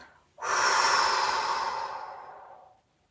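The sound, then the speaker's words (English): A slow, audible exhale during a guided relaxation for anxiety starts abruptly as a soft breathy hiss, holds for about two seconds, then fades out gently into quiet. “envision the vibrant colors of the natural world infusing you with tranquility and calm. As you exhale,”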